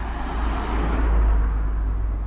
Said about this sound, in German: Ein großer Raum an einer vielbefahrenen Straße. Eine große Türe, große Fenster. Sie lassen den Straßenlärm fast ungefiltert rein.